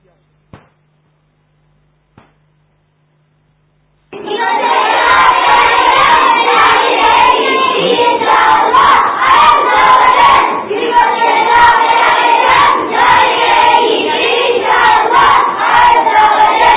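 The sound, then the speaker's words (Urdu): A large crowd at a religious gathering chants slogans in unison. After near silence broken by two faint clicks, loud massed shouting bursts in and continues powerfully to the end. “اللہ اس مدنی منی کے بھی اگر ہو تو نعرے لگوا لو جو میں نے عرض کی تھی آپ سے”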